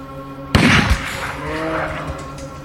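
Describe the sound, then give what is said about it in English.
A single loud rifle shot fired while hunting a bull in snow near an icy inlet: a sharp, sudden crack followed by a low rumbling decay that fades into steady outdoor background noise. “He shot it in the lungs, and it bolted.”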